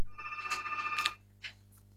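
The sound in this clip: A telephone rings for an incoming caller: a bright trilling electronic ring lasting about a second, then one short faint blip, over a low steady hum with no voices.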